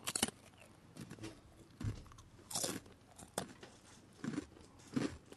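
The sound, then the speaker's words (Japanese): Crisp crunching and chewing of a senbei rice cracker, a series of quiet, sharp bites and crackles spaced irregularly between short pauses, with no talk. “じゃあその間に僕のせんべいの食べる音を聞いててください。”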